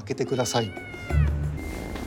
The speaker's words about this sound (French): Si un chat miaule distinctement et bruyamment, c'est qu'il veut quelque chose.